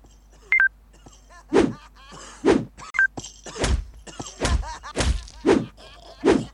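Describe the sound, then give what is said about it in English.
Dull whacks of a bat striking clowns in the video game Circus Master Revenge, a series of heavy thuds at irregular intervals, broken by a couple of short electronic beeps. “Let's see what you can do with six clowns and no bullets. You have a bat. Now use it.”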